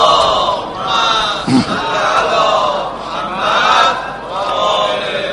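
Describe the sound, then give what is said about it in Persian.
An audience reciting salawat in unison, many voices blending into one loud chant that swells and eases over several phrases. “حالا یه صلوات هم بفرستین تا یه حدیث بگیم.”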